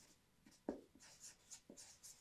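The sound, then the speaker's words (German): Writing on a board makes faint, irregular scratching strokes, with a few short scrapes and small taps and no talk over them. “und ich schreibe hier Gott dieser Welt”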